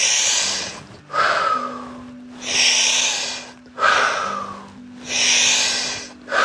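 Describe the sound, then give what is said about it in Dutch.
Forceful breathing during a guided breathing exercise, with strong inhales and blown-out exhales alternating in a steady rhythm. The breaths are loud, airy rushes separated by brief pauses. “Krachtig in, blaas uit. In, uit, in. Uit, laatste drie.”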